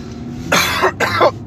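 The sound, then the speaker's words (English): Coughing: a few harsh, breathy bursts in quick succession, with the second cluster loudest, and no talk between them. “Time to end before the coughs become constant because I'm talking too much.”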